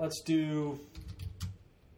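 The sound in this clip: Keystrokes on a computer keyboard while typing a search, a short burst of quick clicks, with a voice sounding briefly near the start.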